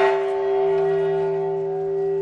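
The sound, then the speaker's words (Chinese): A bell called the Peace Bell is struck once at the UN headquarters in New York, and a sustained ringing tone with steady overtones rings out and slowly fades. “联合国秘书长古特雷斯今天上午在纽约总部敲响了和平钟，纪念9月21日国际和平日”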